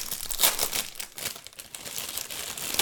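A plastic bag of pretzels is torn open, giving many sharp crinkles and crackly rips in irregular bursts, loud and close, with the crackling continuing throughout.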